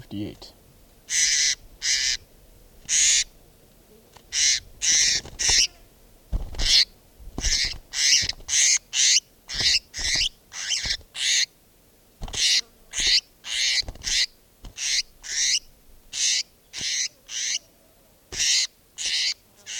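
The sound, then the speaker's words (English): A bird calls over and over, giving many short, high-pitched calls in quick bursts at a fairly regular rhythm, with brief gaps between them and no voices. “Bird”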